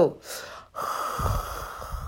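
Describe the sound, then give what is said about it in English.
A voice imitates a yawn with a sharp, breathy intake of air followed by a long, drawn-out voiced tone that stays fairly loud and steady to the end. “She yawning.”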